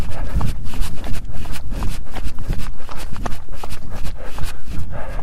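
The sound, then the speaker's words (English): Footsteps of a hiker walking uphill with hiking poles: many loud, steady crunching steps in an even, repeating rhythm, with scuffs and taps throughout. “Walking up again. Use your poles.”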